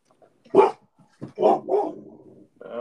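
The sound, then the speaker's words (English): A dog barks aggressively in a few sharp, loud bursts separated by short pauses, each bark clipped and forceful, with no talk around them. “Some aggressive ass bark right there.”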